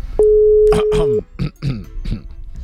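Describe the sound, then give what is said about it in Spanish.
A steady single telephone line tone sounds for about a second while a caller is being dialed, with voices talking over its end and continuing after it stops. “Ya le vamos a marcar, ¿ok?”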